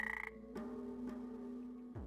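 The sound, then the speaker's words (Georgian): A frog croaks while being irritated into secreting poison: a quick rattling burst opens, then a faint, steady low droning call holds on, broken by a few soft clicks. “ბაყაყს ეს არ მოსწონს, მაგრამ ეს ერთადერთი საშუალებაა.”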